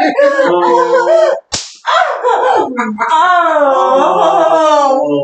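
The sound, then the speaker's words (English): A sharp smack from a combination spanking device lands once, cutting briefly through continuous loud vocalizing before the voice resumes. “they're actually put together in this neat little combination device to spank and hit.”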